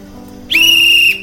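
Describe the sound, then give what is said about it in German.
A train conductor's whistle sounds on a railway platform: one shrill, steady blast of about half a second at an even high pitch, starting sharply and stopping cleanly. “Schaffner blies in die Pfeife und hängte sie sich dann um den Hals.”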